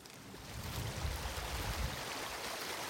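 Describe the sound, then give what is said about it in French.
Rushing water of a glacial mountain torrent in a forest, carrying milky, silt-laden meltwater. A steady, dense roar with a heavier low rumble continues without a break, and no voices are heard. “Toujours ce torrent avec cette eau laiteuse parce que il charrie quoi là au-dessus? On a un glacier évidemment.”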